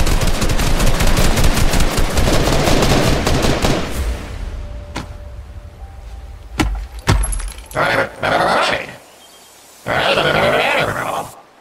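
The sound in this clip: Gunfire aimed at a creature: a loud, rapid burst of automatic fire lasting about four seconds, followed by a few isolated single shots and several shorter noisy bursts.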